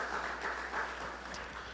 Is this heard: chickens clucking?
no